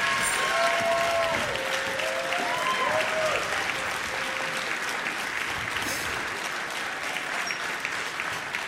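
Sustained applause from the audience for a big band at a music competition, dense and loud from start to finish, easing only slightly toward the end.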